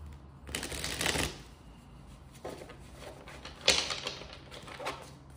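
Tarot cards being shuffled and drawn: a dense papery riffling burst near the start, then a few softer slides and taps of cards, with no voices.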